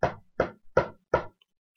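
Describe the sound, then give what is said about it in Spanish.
Four firm knocks on a door, sharp and evenly spaced, each ringing briefly before the next, with no voices around them. “aguardando a Caperucita Roja, que llegó un poco más tarde y llamó.”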